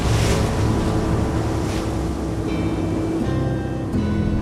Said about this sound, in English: Refugees fill a crowded boat.